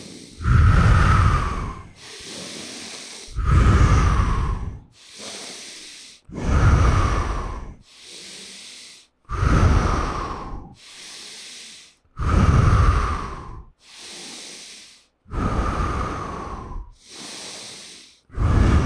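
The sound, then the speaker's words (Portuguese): Slow, deep breathing during a breathing exercise, with air drawn in through the nose. Loud airy breaths alternate evenly with softer ones in a steady, unhurried cycle that repeats many times with no other sound. “Inspira pelo nariz.”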